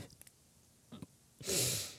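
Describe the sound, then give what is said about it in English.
A sharp breathy exhale through the nose, a brief snort-like rush of air near the end, preceded by a few faint soft breaths and clicks. “That was not a laugh. I was just exhaling.”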